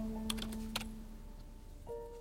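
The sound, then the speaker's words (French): Faint typing on a computer keyboard, entering a Google search: a few light key clicks near the start over a low, steady hum. “Je tape Sugar Daddy sur Google.”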